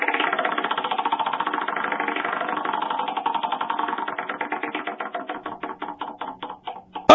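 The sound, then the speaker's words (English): A prize wheel spins at a poker game giveaway. Its rapid ratcheting clicks start as a dense blur and then slow, the ticks spreading wider apart toward the end as the wheel coasts to a stop. “let's spin the wheel one last time. All right. Here it goes.”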